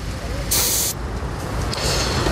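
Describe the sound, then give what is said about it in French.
Air hisses from a car tyre valve as the pressure is checked on the driver's side during a roadside safety check. A longer, bright burst is followed by a shorter one, over a busy background with voices. “On peut vérifier peut-être côté conducteur la pression des pneus d'usage.”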